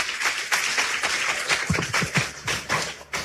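Clapping from people at a church procession, many uneven sharp claps mixed with a few low thumps, moderately loud throughout.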